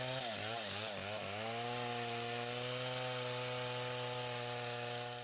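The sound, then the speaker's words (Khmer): Chainsaws whine as trees are felled in Cambodia's Prey Lang forest during illegal logging, the engines revving in a few quick surges before settling into a steady, buzzing drone. “មានសម្លេងរណាយន្តអាឈើត្រហឹងពេញព្រៃឡង់”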